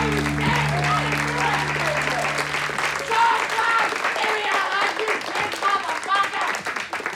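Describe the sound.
An audience at a stand-up comedy show held in a garage applauds and cheers as a comedian comes to the stage. The dense, steady clapping runs throughout, with shouts mixed in and a low tone fading in the opening seconds.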